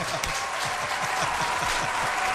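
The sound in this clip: A crowd at an Apple keynote bursts into applause and cheering: loud, dense clapping holds steady throughout, with voices mixed into the roar.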